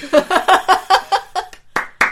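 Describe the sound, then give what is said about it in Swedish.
Hand clapping: a quick, steady run of sharp claps, followed by two separate, brighter claps after a brief gap. “En applåd blir den här gången. Det är en klapp för varje avsnitt som finns utav det här är min podcast.”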